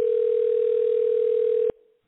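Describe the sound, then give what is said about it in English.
A telephone dial tone on a landline call: one steady, unbroken tone at a fixed pitch holds evenly for under two seconds, then cuts off abruptly, leaving a faint tail. “Dialing.”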